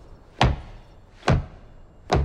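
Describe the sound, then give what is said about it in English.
Three sharp, solid knocks of a mallet striking braking blocks wedged under an RV's rear tire in a dirt RV park lot, evenly spaced about a second apart, with no talk. “uses a mallet to secure braking blocks under his RV's rear tire.”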